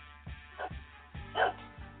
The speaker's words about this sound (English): And that's his head. And that's my dog, Ted.